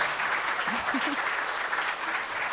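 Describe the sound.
An audience welcomes a comedian onto a stage with dense, steady clapping that holds at an even level throughout.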